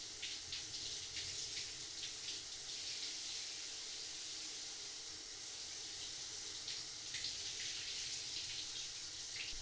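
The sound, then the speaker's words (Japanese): Warm water runs for washing a person's body, a steady, even hiss that continues unbroken throughout at a fairly low level, with no voices. “じゃあ体洗ってあげますから失礼します。お湯熱くないですか？”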